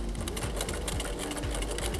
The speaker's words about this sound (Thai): เดี๋ยวเราเริ่มเย็บกันเลยจับได้ไว้นิดนึงแล้วก็เย็บอีกด้านล่างนะคะ